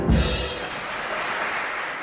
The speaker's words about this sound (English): a full round of applause for Betty and Adolph